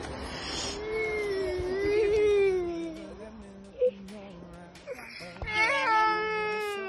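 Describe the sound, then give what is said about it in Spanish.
An infant cries in drawn-out, wavering wails that rise and fall, with short whimpering breaks. There is a brief sharp knock partway through and a louder burst of crying near the end. “no llores, bebé, no llores.”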